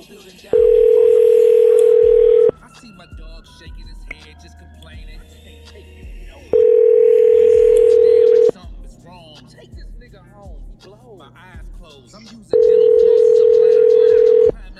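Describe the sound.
Telephone tones sound during a call: three long, loud, steady single-pitched tones come at even intervals of about six seconds, with people talking in the gaps between them.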